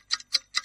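Clock ticking: three crisp, evenly spaced ticks, each a quick double click, moderately loud against silence, with no voices.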